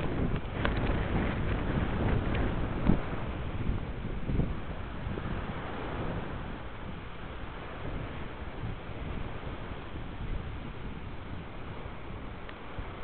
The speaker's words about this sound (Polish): wiatr wieje, jest to wiatr bardzo ciepły, rozwiewa włosy, szumi w uszach.